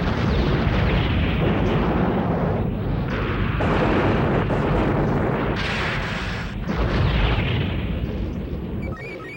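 Artillery bombardment in an animated space battle: loud, rolling booms and blasts pile into a dense, continuous roar that briefly dips a few times before surging again.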